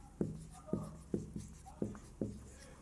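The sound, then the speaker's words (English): Writing on a board gives six brisk strokes, each starting with a soft knock-like contact and a short scrape, coming at a fairly even, unhurried pace in a quiet setting. “Anyway, you get the point. That's your vocabulary. I'll even write it here.”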